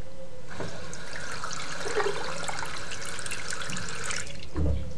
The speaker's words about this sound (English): I'm just going to record the hot and cold taps before this runs out at the sink to show you the stereo. So here's the hot tap.